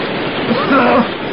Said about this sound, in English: We haven't much time, Sandy. The tide's coming in fast.